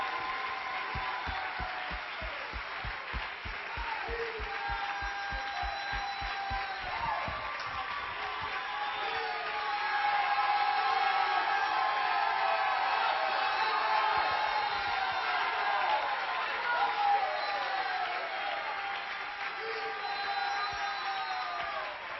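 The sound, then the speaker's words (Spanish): Church audience applauding during a sermon, a long spell of clapping mixed with crowd noise, cheering and whoops. Sustained vocal calls rise above the clapping, which stays moderately loud throughout. “Todos los que han sido cambiados por el poder de Dios, que le den un aplauso grande a Jesucristo.”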